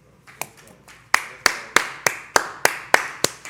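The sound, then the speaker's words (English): Hand clapping: a few soft claps, then about ten sharp, evenly spaced claps in a steady beat. “Let's clap for that queen. Let's clap for the queen. Let's clap for the queen.”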